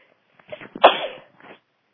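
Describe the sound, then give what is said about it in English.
A single sneeze from someone about to have a sneezing fit: a short breathy intake builds into one sharp, loud burst that trails off, then a faint breath. “I'm going to sign out now because I'm just about to have a sneezing fit.”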